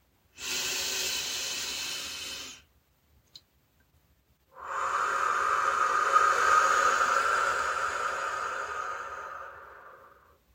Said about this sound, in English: Take a few deep breaths in through your nose and out through your mouth